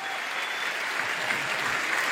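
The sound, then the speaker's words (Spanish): A church audience applauds loudly for a man named Marcos, their clapping blending into a thick, even roar that holds steady throughout without any speech over it. “Damos un aplauso grande al Señor por Marcos”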